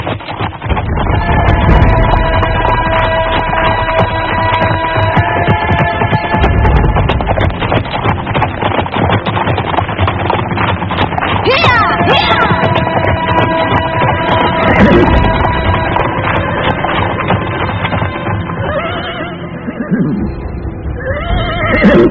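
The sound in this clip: Horses neighing and whinnying as they are ridden, loud and continuous over a dense, steady bed of sound, with a few sharper whinnies standing out near the middle and toward the end.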